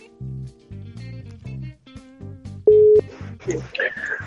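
Electronic telephone tones on an outgoing call: a rhythmic run of low beeps, interrupted once by a steady held tone, with higher chirping tones near the end.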